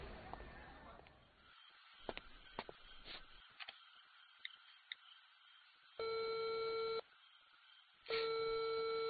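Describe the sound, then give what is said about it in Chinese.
Ringback tone of an unanswered phone call: two steady, buzzing electronic beeps separated by a short gap, the second running to the end. Before them comes a stretch of faint background noise with scattered clicks. “电话也不接，不会出事了吧？”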